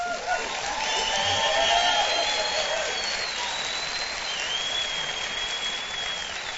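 Sustained audience applause welcoming listeners at a live Saturday night Bible study. The clapping forms a dense, even wash that holds steady for the whole stretch.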